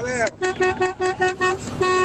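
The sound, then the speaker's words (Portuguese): A horn or vuvuzela blares a rapid, rhythmic run of many short toots, loud and buzzy on a steady pitch, with a longer held blast at the end. “a sua buzina, a sua vuvuzela, sei lá”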